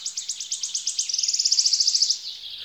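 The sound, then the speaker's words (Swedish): A wood warbler sings a high, rapid trill of repeated notes that speed up into a fast, shivering run before tailing off. The song is clear and stands alone. “Visst låter det som en slant som snurrar på ett bord, snabbare och snabbare. Kanske sitter grönsångaren i en gammal ask och sjunger.”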